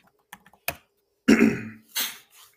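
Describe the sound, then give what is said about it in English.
Typing on a keyboard, a few light, scattered key clicks at the start, followed by a couple of louder, heavier noisy bursts and a faint trailing rustle. “One second. I have to type this.”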